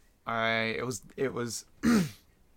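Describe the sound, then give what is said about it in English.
Throat clearing in the middle of casual conversation: a few rough, voiced guttural bursts, the first longest and strongest, followed by shorter rasping pushes. “You just had to clear your throat.”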